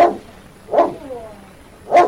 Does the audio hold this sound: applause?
no